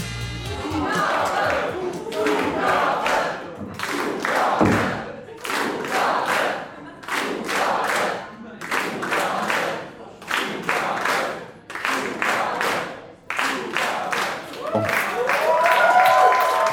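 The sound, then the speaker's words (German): A German late-night show audience calls out rhythmically for an encore, many loud evenly spaced group shouts repeating about once a second, with clapping and thuds beneath the chant. “Wenn ihr jetzt rhythmisch etwas ruft, geben die beiden sicher eine Zugabe.”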